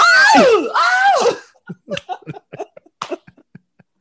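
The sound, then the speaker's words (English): A man screams as a spider crawls on him: two loud, wavering screams in quick succession, followed by a run of short, broken vocal sounds. “And the way he screams when the spider's on him”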